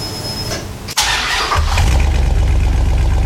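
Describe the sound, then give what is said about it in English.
A truck's fuel pump primes with a steady high whine, then after a sharp break the engine cranks, catches and settles into a loud, continuous low rumble. “Ooh, fuel pump priming. Yep, hear that.”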